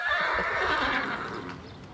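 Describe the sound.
A horse neighs on a riding and farm-experience yard, one loud, drawn-out whinny that fades gradually over its final half second.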